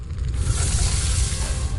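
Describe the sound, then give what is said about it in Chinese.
Sizzling wok cooking with clattering spatulas at an international Chinese cuisine cooking championship in a Chengdu exhibition centre. It comes as a brief, steady, dense hiss with no separate clanks standing out. “7月2号到3号，成都新国际会展中心油烟缭绕，锅铲作响。”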